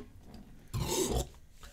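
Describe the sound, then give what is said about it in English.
A low, rasping beer burp comes in one short burst of about half a second, fairly loud against a quiet background. “Burp that way, please. Don't need those beer burps in your face.”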